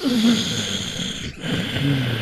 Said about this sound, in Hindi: योग में एक श्वास है उज्जायी श्वास, जिसको हम गले से श्वास लेते हैं, तो आप अपना फोकस नाक से हटाकर अगर गले पे ले जाएं,